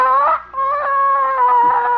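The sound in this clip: Hens cluck and squawk in loud, drawn-out, tuneful calls at a fairly steady pitch, one call running straight into the next.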